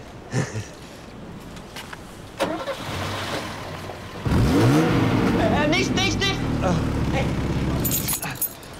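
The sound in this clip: A car engine cranks and catches after spark plug work, bursting in loudly midway and then revving with rising tones before settling. A few knocks come first, and people talk around it.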